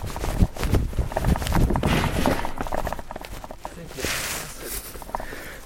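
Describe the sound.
Hurried running footsteps of a reporter dashing for cover after Taliban fire at a police front line near Lashkargah, many quick, heavy steps mixed with rustling and scuffing.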